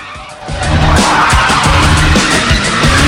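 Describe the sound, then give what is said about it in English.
Tires squeal as a motorbike burns rubber in circles. The engine roars loudly under a continuous screech, with rhythmic revving pulses through the whole stretch. “He burns rubber in circles as the cop tries to catch him.”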